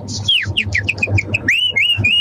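People whistling in imitation of bird calls, a quick string of many high, chirping notes that sweep up and down, with a low hum and faint background noise underneath.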